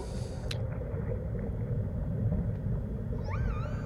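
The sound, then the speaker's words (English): Whale song in a recorded music track: a low, steady rumble fills the background, and a few wavering, gliding tonal calls rise clearly near the end. “those are whales. Yeah, it's not a didgeridoo.”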